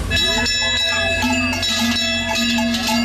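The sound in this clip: Cowbells from an alpine cattle drive in South Tyrol, with several bells clanging and ringing over one another in a continuous, bright metallic jangle for a few seconds.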